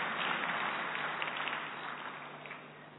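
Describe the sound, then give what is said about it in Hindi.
Dense clapping welcomes a senior guest at a Brahma Kumaris gathering. The applause holds a steady, even texture, then tapers slightly toward the end of its three seconds. “तहे दिल से करतल ध्वनि से स्वागत है, स्वागत है, स्वागत है।”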